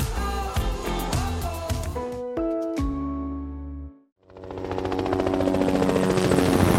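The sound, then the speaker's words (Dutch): A trauma helicopter taking off from a hospital in Amsterdam: a dense, steady rotor chop and engine whine that swells in loudness, with no talk. “Lifeliner 1 stijgt op vanaf het VU Medisch Centrum in Amsterdam. De traumahelikopter reageert op een alarm dat 's ochtends vroeg om 7:50”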